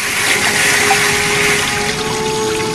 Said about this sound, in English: the tap spews out a torrent of water which starts off dark brown but then